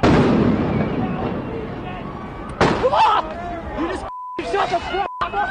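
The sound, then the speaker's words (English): Police on horseback firing rubber bullets at protesters in a city street: a few sharp, loud pops and bursts cut through a dense crowd hubbub, with voices shouting and talking throughout. “The LAPD moving in on horseback, firing rubber bullets at protesters, moving them on through the heart of LA.”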